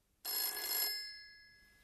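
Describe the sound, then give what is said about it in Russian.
A telephone bell rings in one loud, bright burst of about two thirds of a second. Its metallic ringing tone then fades slowly. “Выяснив, в какой гостинице она остановилась, я позвонил ей.”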